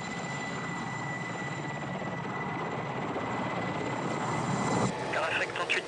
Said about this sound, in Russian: Аэропорт. Тягач паркует огромный Boeing 747 авиакомпании Air France.